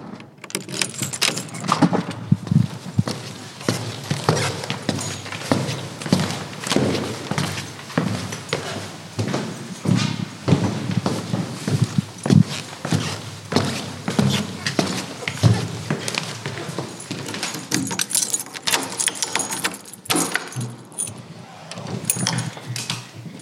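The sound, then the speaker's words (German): Keys jangle and rattle at a home front door being unlocked after climbing the stairs. The metallic jingling and clicks run almost continuously and fairly loud throughout. “dass ich auch eine Aufnahme habe, wie wir die heimische Treppe hochgehen und wie wir aufschließen statt abschließen”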